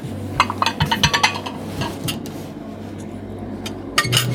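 Plates and cutlery clink as dishes are handed around at a shared meal, with many sharp, bright knocks and taps bunched in the first part, a quieter stretch, then a few more clinks near the end over a low hum.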